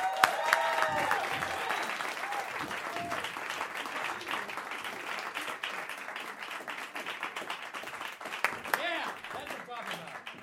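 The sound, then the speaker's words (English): Audience applause welcomes an award-winning chef onto a stage, a thick, even wash of clapping that holds throughout, with voices rising over it in places. “Ladies and gentlemen, give it up for Chef Beverly Kim!”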